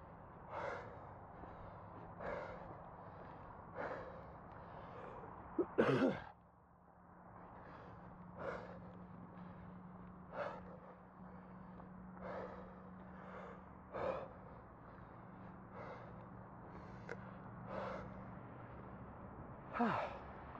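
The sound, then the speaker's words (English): Faint, slow breathing: soft breath sounds repeat steadily about every second and a half over a low, constant hum, with one louder, sharper breath near the middle. “Breathing, also ambience, in case you're wondering.”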